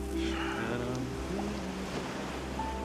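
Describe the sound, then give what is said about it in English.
Ocean surf on a beach gives a soft, continuous wash of waves, low and even in level from start to finish. “Later, they wash themselves off in the surf.”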